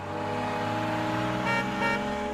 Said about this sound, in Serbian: I hajdemo na more automobilo.